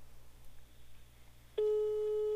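A telephone ringback tone sounds while a call is being placed. A faint hiss gives way to a single loud, steady tone that begins partway through and holds unbroken to the end.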